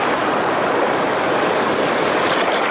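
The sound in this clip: The Kunar River flowing at a rising, high water level, a loud, steady, unbroken rush of hissing water that stays even throughout, with no voices.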